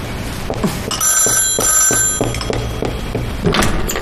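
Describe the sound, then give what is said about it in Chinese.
Telephone bell ringing for an incoming call: a rapid, metallic trill of repeated strikes that carries steadily through the whole stretch with a bright, sustained ringing tone. “吴站长来电话找你。”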